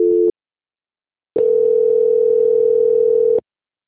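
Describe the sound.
Telephone transfer tones during a bank call being passed to a quality-control line. A short steady beep is followed by a pause, then a longer steady tone at the same pitch that cuts off abruptly.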